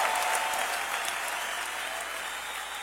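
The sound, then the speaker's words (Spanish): Applause during a church worship service, continuous dense clapping that eases slightly in loudness toward the end. “aplauso al Señor fuerte.”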